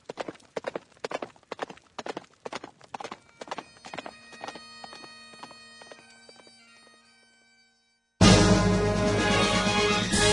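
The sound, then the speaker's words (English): Horse hooves galloping in a fast, steady clip-clop rhythm that gradually fades away to silence, followed by an abrupt loud burst of unrelated sound. “And now, Jesus Christ can gallop with the best.”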